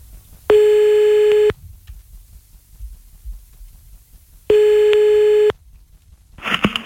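A telephone ringback tone plays while a number is called back. Two steady, one-second tones come about four seconds apart with near silence between them, and a short noisy burst follows at the end.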